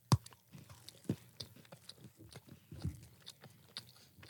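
Crunchy chewing of a chocolate-covered chocolate biscuit: many irregular bites and chews, some sharp and loud, others soft and wet, with no talking.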